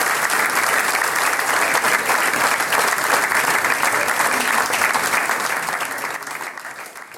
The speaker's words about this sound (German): Applaus